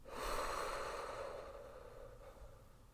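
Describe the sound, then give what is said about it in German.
A single deep breath through the nose and mouth, as in a guided breathing exercise: soft, airy rushing that swells quickly and then fades slowly over about three seconds, with no talking. “Also tief einatmen und durch den Mund wieder ausatmen.”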